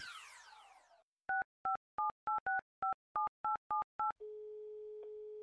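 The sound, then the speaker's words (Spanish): Telephone dialing to a university: after a brief falling sweep, ten short two-tone keypad beeps sound in quick succession, followed by a steady continuous tone. “Pues llamando a la Universidad Francisco de Paula Santander.”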